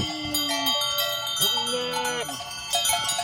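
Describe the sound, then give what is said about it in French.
Young goat kids in a farmyard give a few wavering, voice-like bleats that rise and fall over steady ringing tones. “Mais ils vont bien, tous ces petits cabris.”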